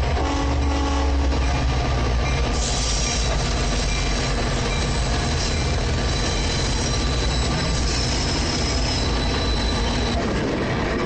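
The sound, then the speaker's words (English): An Amtrak train moving into a station makes a loud, continuous rumble of wheels and cars, with high metallic wheel squeals running over the heavy rolling noise throughout. “Amtrak train moves into a station.”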